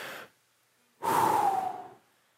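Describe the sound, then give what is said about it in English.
A person takes a deep breath in and blows it out. The end of the inhale is followed by a pause, then one long, soft, breathy exhale lasting about a second, with no talk. “I want you to take a deep breath in and blow it out.”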